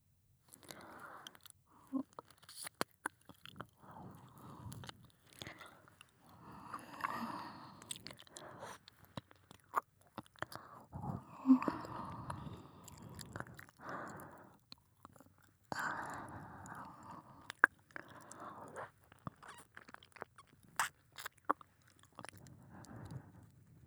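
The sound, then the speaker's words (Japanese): Soft, wet mouth nibbling and chewing sounds of ASMR ear eating. Many small smacks, clicks and sucking noises come in an irregular, continuous stream at a quiet level. “こっちも失礼して、お耳いただきます。”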